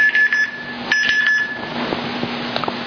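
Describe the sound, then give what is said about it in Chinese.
A mobile phone alarm goes off during a church sermon, sounding a steady electronic tone with short chiming pulses over it. The alarm is loud and keeps going throughout. “这是元桥的手机，他又在报警了”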